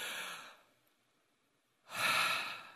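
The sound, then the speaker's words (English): A deep breath is taken to relax: a soft, airy rush of breath fades out, then after a short quiet pause a second, fuller breath swells and holds. “Why don't you just take a deep breath”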